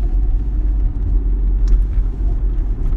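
A car driving on the road on a morning: a steady low rumble of engine and road noise, continuous and even with no distinct events and no voices.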